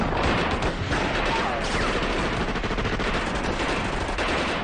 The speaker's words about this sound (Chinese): 有子弹从这边射过